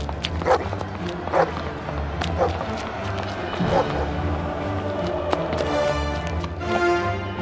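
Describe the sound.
Dogs barking amid a peaceful crowd in a dramatized scene, a few sharp barks rising out of shuffling, running movement noise. Voices can be heard faintly in the background.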